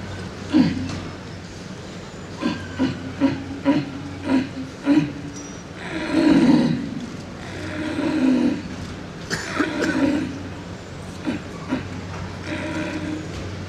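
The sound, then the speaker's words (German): A man imitates a red deer stag's rutting roar in a stag-calling contest, portraying a tired stag at the end of the rut. A series of short hoarse grunts leads into a few longer, drawn-out, moaning roars. “Im Bett sitzender Hirsch, etwas abgepumpt, etwas müde, noch einmal Hirsch.”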